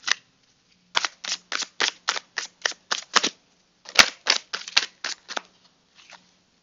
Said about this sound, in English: But I think we're gonna do our tarot reading for today. Let's see what needs to be conquered for today.